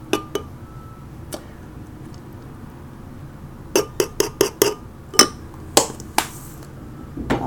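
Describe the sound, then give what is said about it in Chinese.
A spoon clinks against a bowl while an oat mixture is stirred. A few sharp clinks come at first, then after a pause many quicker, irregular clinks and scrapes follow, with no talk. “所以那个粗犷系的食物，好，搅拌搅拌。”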